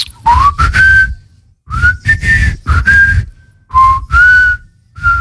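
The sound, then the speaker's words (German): A man whistles a melody in short phrases, with a clear, bright tone that slides up into each held note. Breathy breaks separate the loud phrases, and no other sound accompanies it. “kannst du eigentlich gut pfeifen? Natürlich, soll ich jetzt mal. Bitte.”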